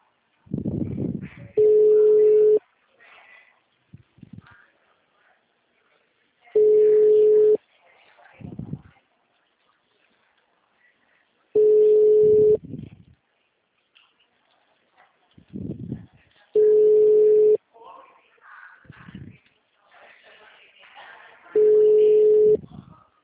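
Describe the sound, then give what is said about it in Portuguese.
Phone line tone while calling a mobile number: five steady, evenly spaced beeps, each lasting about a second, with speech filling the gaps between them. “Gente, tô em ligação.”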